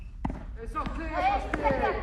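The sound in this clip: A tennis ball bounces on the ground during a children's school tennis lesson, giving a few sharp, short thuds. People talk throughout.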